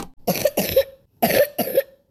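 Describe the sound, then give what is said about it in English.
Four harsh coughs in two pairs, wet and chesty, from a woman with a cough that has lasted about four weeks and may signal lung sickness; each burst is loud and short with no talk over them. “So if you hear a wet cough that won't go away,”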